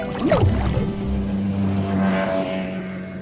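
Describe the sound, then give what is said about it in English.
A boat propeller passing underwater, heard as a steady, low whirring motor drone with churning water that swells and then fades slightly. No voices. “Did you say a boat propeller?”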